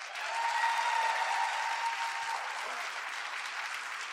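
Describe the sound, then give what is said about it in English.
Steady audience applause greets a guest, a youth reconciliation activist, holding an even, moderate level from start to finish with no distinct voices above it. “Yeah, let's give it up for Max.”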